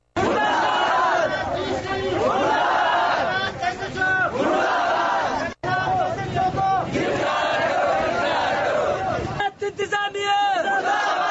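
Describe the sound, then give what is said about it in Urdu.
Protesters in Kalat chanting slogans against a police shooting, a loud rhythmic crowd chant repeating in waves with one brief break midway. “اس موقع پر انہوں نے یہ نعرے لگائے۔”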